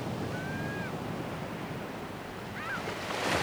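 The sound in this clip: Ocean waves rolling in as a steady, broad wash of surf with wind, swelling slightly louder toward the end.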